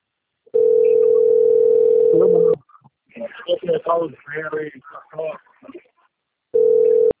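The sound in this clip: Ringing tone of an outgoing telephone call, with two long steady tone bursts separated by a pause in which a person talks.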